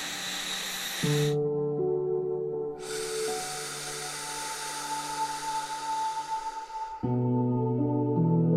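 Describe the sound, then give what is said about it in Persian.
Slow, deep breaths during a guided relaxation: long airy rushes of breath, one brief and one drawn out over several seconds, over a steady, sustained tonal music drone. “یه چند تا نفس عمیق بکش. یه نفس دیگه.”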